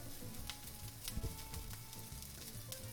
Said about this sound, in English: Okay. Well, that melted fast. Butter. Melting quickly in a pot on high heat.